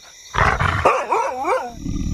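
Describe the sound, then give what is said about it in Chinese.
A husky dog gives a rough, growling bark, then a loud yowl whose pitch wavers up and down several times before trailing off into quieter rumbling. “这是哈士奇吧？真是受够了，居然拿哈士奇冒充狼。”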